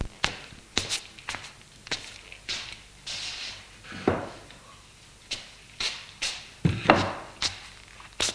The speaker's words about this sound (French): il prend une chaise qui est contre le mur et va la poser à côté du lit.